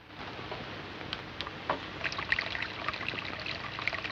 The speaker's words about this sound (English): he signals for her to pour more water from a kettle into his footbath.